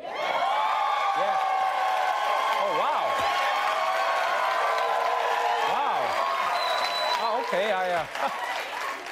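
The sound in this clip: A studio audience applauds and cheers in a steady, loud wash of clapping and whoops, while a man speaks over it.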